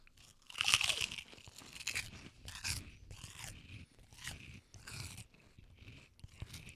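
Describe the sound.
Faint, crisp crunching as pickle-flavored pork rinds with vinegar, dill and a bit of heat are bitten and chewed, with many irregular crackling bites and chews in a row and no talk.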